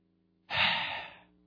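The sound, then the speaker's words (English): One deep breath, drawn loud and airy, swells suddenly and then tapers over under a second before fading to quiet, with no talking around it. “let's take a deep breath”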